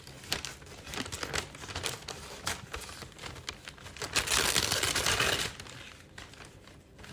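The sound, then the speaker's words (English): Crinkling and rustling of gift wrap paper being cut with scissors and crumpled while wrapping Christmas presents, with many sharp crackles and a longer, louder rustle near the end. “I'm just cutting shit and just trying to make it look nice because I have way too much gift wrap”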